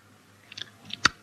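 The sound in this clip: Chewing by a person: a few short, faint, moist mouth clicks and smacks, ending with one sharper, louder crunchy click, alone with no talk.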